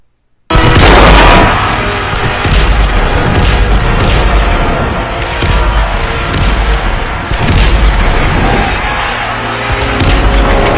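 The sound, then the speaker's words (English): Grenades explode nonstop in a film battle scene, with many heavy booms layered into a loud, continuous rumble that barely lets up for the whole stretch. “And then Beef Supreme is just blasting grenades at where Joe's at, like nonstop.”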